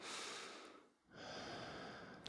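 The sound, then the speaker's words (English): Breathing through a nose that had been blocked for a week: a long, soft, airy breath, a short silent pause, then a second long breath ending in a brief sharper sniff, quiet and alone. “I mean, like, I can breathe through my nose right now. Listen.”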